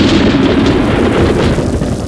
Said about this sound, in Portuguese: Ih, a chuva continua caindo, eu não trouxe guarda-chuva.